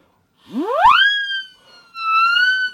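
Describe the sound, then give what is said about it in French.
Mouth-blown whistle siren whose rotor chops the air: a first blast glides sharply upward in pitch into a shrill held wail and fades, then a second steady blast sounds and sinks slightly as it ends. “là j'en ai une qui fonctionne sur le même modèle, c'est une sirène sifflée.”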